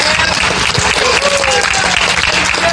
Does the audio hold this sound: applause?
yes